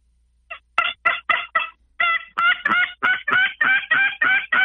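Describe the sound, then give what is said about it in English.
A turkey tube call imitates a hen with a rapid series of more than a dozen raspy, nasal yelps, evenly spaced and growing slightly louder, sounding somewhat off-key, with no talk over them. “another call that's really working is these tube calls. I just started using one again. And I tell you what, it gives it a little bit off sound. See if I can do it.”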